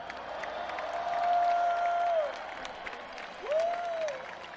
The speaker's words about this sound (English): The equipment, the drums, piano, guitars. Let's hear it for the best crew on the planet.